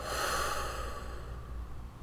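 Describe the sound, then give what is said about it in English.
A single deep breath in and out during a guided relaxation exercise, an airy, breathy rush that is strongest at first and then eases off, heard alone. “And what we're going to do one great inhale, exhale.”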